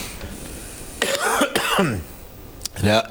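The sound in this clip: Harsh coughing comes from a man not yet fully over an illness, with a few abrupt bursts mixed in among stretches of talking.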